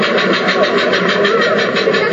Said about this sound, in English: Is that a steam car? Apparently. Yeah, that's what I thought.